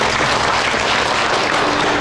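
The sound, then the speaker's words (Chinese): Loud applause from a group of students thanking a guest after a talk: a thick, continuous rush of clapping that stays steady and unbroken for the brief moment heard. “让我们用掌声表示感谢。”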